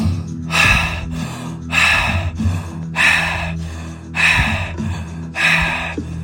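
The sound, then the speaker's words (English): Paced breathing in and out through the mouth, heard as a steady, even rhythm of loud, airy inhales and exhales. The breaths repeat in matched pairs, with a low tonal hum underneath. “it's going to be in and out through the mouth. It's going to sound like this.”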